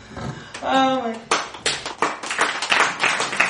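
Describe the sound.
Applause from an audience in a room, dense overlapping claps building after a brief voice, sustained and fairly loud for several seconds with sharp rhythmic bursts throughout.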